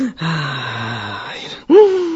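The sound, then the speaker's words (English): A slow, loud calming breath demonstrated by an adult, drawn out into a long voiced sigh with a groaning tone, followed by the start of a second, louder breath. “the parent should actually go find a chair and sit down and breathe loudly and slowly, like,”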